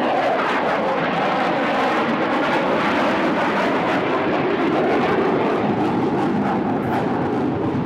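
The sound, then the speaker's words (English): Loud, steady jet roar of an aerobatic display team aircraft, the team's number seven ship, passing overhead near a single runway on a gusty day; the broad rushing engine noise holds unbroken throughout, with no voices. “Definite sighting, by the way. Yeah, that's definitely one of the Thunderbirds. I think that's the number 7 ship.”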